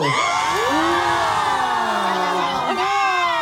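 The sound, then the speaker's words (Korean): High, shrill screaming and cheering from a large crowd of fans packed outside an open radio studio on a hot day, a continuous wall of overlapping shrieks and whoops with no break. “밖에 있지 팬분들 소리 질러!”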